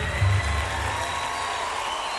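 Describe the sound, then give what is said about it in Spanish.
Applause from a crowd for a trio: a steady, dense wash of clapping that holds at an even loudness throughout, with no voices standing out above it. “aplauso al trío.”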